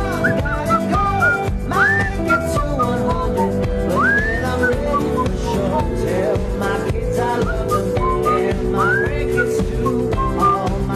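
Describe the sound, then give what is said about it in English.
A person whistles a song, the bright melody sliding between notes over a steady, dense musical backing that holds an even loudness throughout. “You know what this song needs? Whistling. And I'm about to prove it.”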